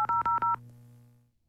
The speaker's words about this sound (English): let's call up somebody who texted in